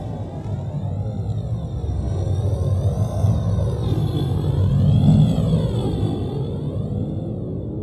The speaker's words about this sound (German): Wir durchbrechen jetzt die Atmosphäre!